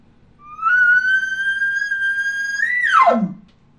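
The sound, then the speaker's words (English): A human voice imitates an elk's location bugle. A long, high whistle-like tone holds steady and climbs slightly, then drops sharply into a low, raspy tail at the end. “Remember, going up this elevator, get that high-pitched sound, drop it off at the end. Then you have a location bugle. It sounds like this.”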